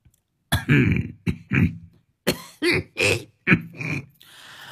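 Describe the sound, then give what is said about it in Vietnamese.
An elderly man coughs loudly several times. Harsh, throaty hacking bursts come in uneven clusters with short pauses between them, with no speech. “ho sổ sụ lên mấy tiếng”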